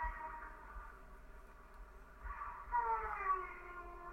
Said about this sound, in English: Sounds like a baby crying. Or like hanging out in a crib. What the hell is this? What Momo sounds like.